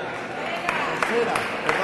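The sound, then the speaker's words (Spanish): Steady, dense applause from an audience after a saeta at a cofradía's Holy Week saeta final in a hotel, with a voice speaking over the clapping. “nos quedamos con la segunda saeta de Guille de Castilla. Un aplauso.”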